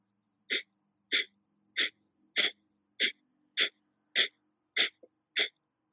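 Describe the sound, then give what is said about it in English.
Breath of Fire yogic breathing, with rapid forceful exhalations pumped from the navel center. Nine sharp, evenly spaced breath bursts come roughly every 0.6 seconds, with one tiny extra puff near the end, alone against silence. “if this is your first time practicing Breath of Fire, I like to just place a hand over the stomach, over the abdominal region, and you can really feel the pumping or chugging of the navel center.”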